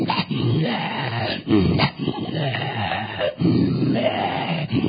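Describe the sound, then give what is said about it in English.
A man imitating growling and groaning, a continuous run of rough, guttural voiced rumbles broken by a few short pauses, loud throughout. “the men, they growl, they groan, and they induce these spirits. That's why they go,”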